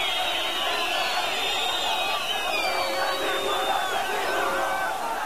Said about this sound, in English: here is the sound of some protesters in Damascus as there's been reaction around